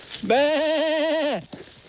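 A person imitates a goat's bleat to summon goats: one sustained, wavering call of about a second with a quavering vibrato, followed by a brief breathy sound.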